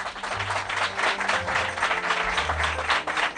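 Audience applause at a radio station open day: a steady, fairly quiet wash of many hands clapping, with a low hum running beneath it.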